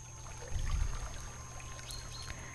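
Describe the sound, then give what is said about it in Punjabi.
Water flows in a small river with a steady trickling, gurgling wash that continues throughout, with a brief swell of low rumble near the start. “ਸੋਚੋ ਕਿ ਹੁਣ ਅਸੀਂ ਇੱਕ ਛੋਟੀ ਜਿਹੀ ਨਦੀ ਦੇ ਕੋਲ ਆ ਗਏ ਹਾਂ। ਇਹ ਉਹ ਸੋਹਣੀ ਜਿਹੀ ਨਦੀ ਹੈ ਜਿਹਦੇ ਵਿੱਚ ਪਾਣੀ ਦੀ ਆਵਾਜ਼ ਸਾਨੂੰ ਅਲੱਗ ਤੋਂ ਸਕੂਨ ਦੇ ਰਹੀ ਹੈ”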